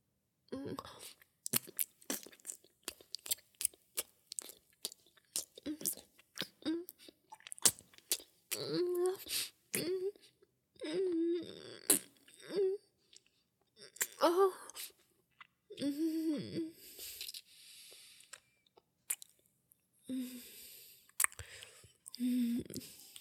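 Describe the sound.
Gum chewed wetly with squishy, smacking mouth sounds in an irregular rhythm of short bursts. Whispered and breathy voice sounds fall between the bursts.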